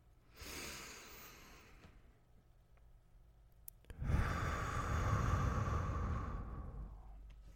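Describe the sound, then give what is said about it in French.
A deep breath in, then a deep breath out during a breathing exercise: a soft inhale, a short pause, then a longer, louder exhale that fades away gradually. “tu vas prendre une grande inspiration puis une grande expiration”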